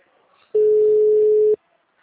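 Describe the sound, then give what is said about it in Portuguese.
Phone tone after a dropped call: a single steady, mid-pitched electronic beep lasting about one second, loud and alone against near silence. “A ligação caída. A ligação caída.”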